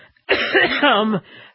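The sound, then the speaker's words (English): A dry, rasping cough from a man with a dry throat: a single voiced, throat-clearing burst lasting about a second, fairly loud and heard alone. “boy, wicked cough. As soon as I started talking about the babies, somehow that got me into trouble there with that dry throat.”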